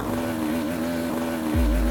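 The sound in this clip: Two-stroke motorbike engine running with low power and a gear that cannot be changed: a continuous buzzing drone with a steady, slightly wavering pitch, loud and unbroken, with a deeper rumble swelling in near the end.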